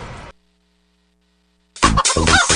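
A chicken clucks in a short, loud burst of throaty notes that comes after a moment of near silence.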